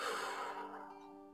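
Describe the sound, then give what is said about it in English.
A slow, soft exhale during guided meditation breathing, airy and gradually fading over about a second above faint sustained background tones. “Fill your lungs and let it go into your heart, and let your heart transport that light throughout your body more and more. And breathe out”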